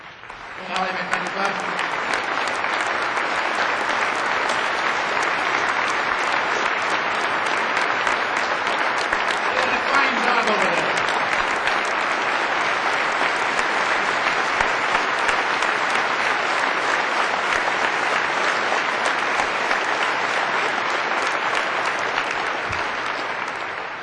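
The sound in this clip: Dense applause welcomes young workers standing in a gallery in British Columbia, a continuous crowd clapping that holds at an even, loud level for over twenty seconds before tapering slightly at the end.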